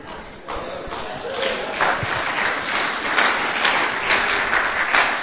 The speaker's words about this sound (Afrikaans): Julle sal agterkom, ek het nie gevra dat hulle hande klap nie.